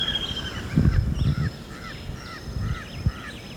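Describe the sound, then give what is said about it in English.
A jabbering crow gives a series of short, nasal, rising calls in an uneven rhythm, moderately loud over a low background rumble. “It's jabbering crow.”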